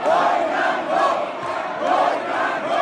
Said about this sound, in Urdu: نتائج کا اعلان ہوتے ہی نون لیگ کے ارکان نے نعرے بازی شروع کر دی۔